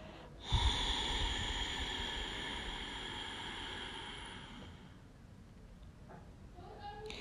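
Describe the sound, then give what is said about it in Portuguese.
A long, steady, airy rush of breath exhaled through both nostrils during a breathing exercise lasts several seconds and fades out over soft, sustained background tones. “Solta o ar por ambas as narinas.”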